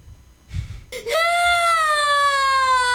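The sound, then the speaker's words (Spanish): A child crying, upset at failing to get something right: after about a second of low murmur, one loud, long, steady wail begins and holds, its pitch sinking slowly to the end. “Ahí está llorando el niño porque pues no le sale bien”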